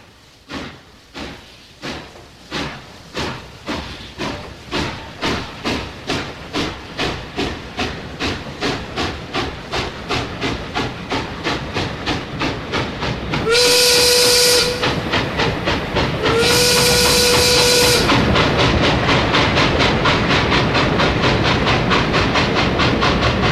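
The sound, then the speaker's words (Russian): Steam locomotive running, its rhythmic chuffs growing steadily louder and quicker under a constant steam hiss, with two long, loud whistle blasts near the end. “Едет, едет паровоз, три трубы и пять колес,”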